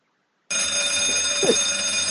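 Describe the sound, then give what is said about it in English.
An alarm rings after a brief silence, then holds a loud, steady, high-pitched ring with a fixed tone that continues unchanged to the end. “Turn the alarm down.”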